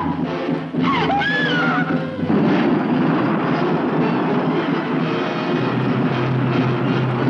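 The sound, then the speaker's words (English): Aircraft engines roar in a film scene as planes take to the air, a loud, steady, broad drone that holds at an even level for the whole stretch. “An airlift is being set up and food will be parachuted down to him. He'll be supplied with everything he needs. Get all the aircraft into the air at once.”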